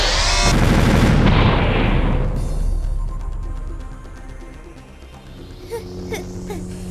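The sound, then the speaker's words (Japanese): A doll used as a bomb explodes in a loud, broad roaring blast that fills the first two seconds, then gradually fades into low rumbling with a few faint sharp pops near the end. “まさか人形爆弾代わりにするとは思わなかったわ。”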